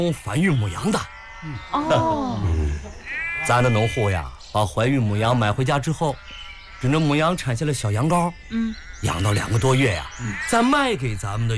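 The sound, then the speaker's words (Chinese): Sheep bleat at the Chenyuan breeding farm, a flock calling almost without pause in many overlapping, wavering cries of varied pitch, fairly loud throughout. “你看那羊肥的， 这么多羊”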